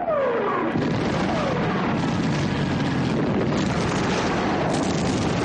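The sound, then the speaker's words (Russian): Bombs dropped by planes on a farmstead and trenches: a falling whistle at the start, then a continuous heavy roar of blasts and rumbling debris that stays loud and dense throughout. “Самолеты сбрасывают бомбы на хутор и окопы.”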